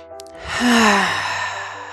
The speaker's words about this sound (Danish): Tag et par gode vejrtrækninger her.